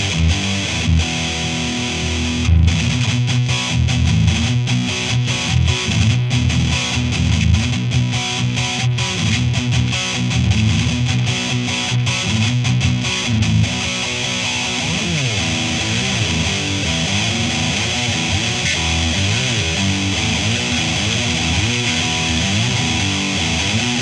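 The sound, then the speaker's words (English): An electric guitar plays through a crisp, clean distortion with a slightly noisy setup, sounding continuous, dense chords and riffs at a steady, loud level throughout. “Really nice crisp clean distortion, as you can hear, even with the setup I have.”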